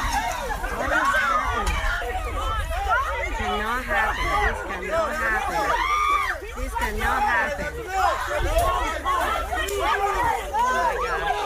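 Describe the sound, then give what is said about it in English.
Agitated crowd shouting and yelling during a brawl on the field at a kids' baseball game, with many overlapping excited voices forming a constant, loud commotion. “So what you're hearing is, during this time, MMA fest on the field, they're all beating the crap out of each other.”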